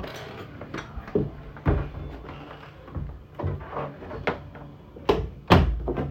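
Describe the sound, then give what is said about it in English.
A door being shut: a series of soft thumps and wooden clunks spread over several seconds, the loudest knocks near the end, with no talking. “sorry for the background noise, I gotta shut my door.”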